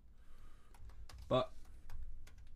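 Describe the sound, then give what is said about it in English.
Typing a search on a computer keyboard: a few scattered, faint key clicks with one brief louder cluster, while people talk quietly. “What am I searching? Type in 3 in 60 rape case conviction.”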